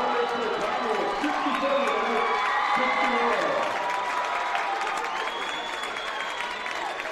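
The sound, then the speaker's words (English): Campbell County basketball fans cheer after their team's win before a capacity, standing-room-only crowd. A loud, unbroken roar of shouting voices and clapping holds steady for about seven seconds and eases slightly near the end. “What you are hearing now is the Campbell County Campbell faithful cheer. And in front of a capacity, standing room only crowd”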